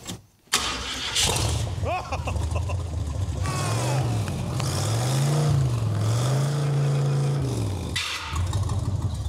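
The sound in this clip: A 1990s vehicle engine cranks and catches, then keeps running steadily, with several revs that rise and fall in pitch before it settles back toward idle.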